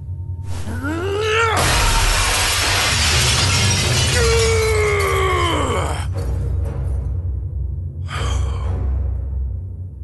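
A mirror shattering: a long, loud crash of breaking glass that lasts several seconds, with groan-like vocal sounds before and during it, then a shorter burst of noise near the end.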